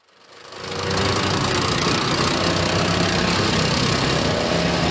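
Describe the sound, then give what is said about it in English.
Engine of a Cold War armored tank running on a demo track: a dense, loud, steady roar with deep rumble that swells in over the first second and then holds constant. “the War Museum, where staff were taking a tank for a spin”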